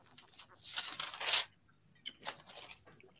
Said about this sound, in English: The page flipping made the drink sound a little bit better.